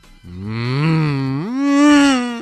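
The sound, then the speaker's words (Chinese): A human voice imitating a Ferrari 488 driving off: a loud, sustained droning hum that steps up in pitch halfway through and then holds. “哎，那我就把我的这个法拉利四八八这个四百多万的车开走喽，走吧。”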